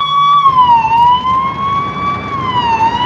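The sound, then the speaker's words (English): A police car siren wails as the car drives up to a house at night. The tone is loud and continuous, dipping and rising gently in pitch over a low rumble of road noise. “A police car drives up to the house.”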